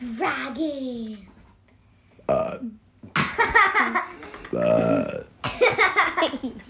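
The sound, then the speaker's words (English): A child's burp, a low croaking eructation, stands out among bursts of a child's babbling, chattering voice. “burp in your own face”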